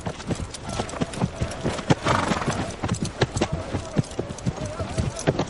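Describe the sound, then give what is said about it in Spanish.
Horses are ridden at a walk past a square stone tower near a military camp. Many hooves clip-clop in a steady, uneven rhythm, and a voice speaks over the hoofbeats. “Kat y Roderick pasan a caballo junto a una torre de piedra cuadrangular cerca de un campamento militar.”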